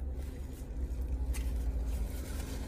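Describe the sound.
A car engine left running to keep the battery charged, a steady low idling rumble that hums evenly throughout with no other distinct sounds.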